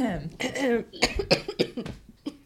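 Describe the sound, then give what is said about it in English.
Throat clearing and coughing come as a few short, rough, breathy bursts after a brief voiced sound, fairly loud and closely spaced. “Everyone clear their throat if they need to.”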